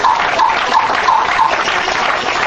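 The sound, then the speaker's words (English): An audience claps their hands for the Lord during a Sunday morning church service. The applause is loud, dense and steady, with many hands clapping at once and keeping an even level throughout. “Give the Lord a hand clap this morning.”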